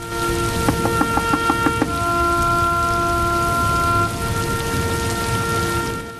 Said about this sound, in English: As the rain sheets down on the fields and trees around the house, Audrey steps across the front porch